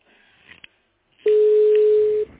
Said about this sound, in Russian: я звоню в полицию, ну вас нафиг.